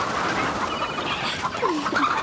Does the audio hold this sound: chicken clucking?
yes